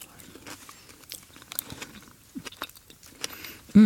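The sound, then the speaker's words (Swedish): Crunchy chewing of a dessert topped with Biscoff cookie crumbs and sauce: scattered, irregular crisp clicks and crackles, mostly faint, ending in a short, louder low hum of voiced approval. “Och sen får man liksom hela kombon av lite crunch, lite sås, lite syrligt, lite fett. Nu ska jag smaka då.”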